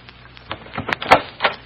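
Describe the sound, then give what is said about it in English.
Light tapping on a dressing room door gives a handful of soft, uneven knocks that stand alone with no voices. “Now, as Kate taps on the door of Tony Fassina's dressing room.”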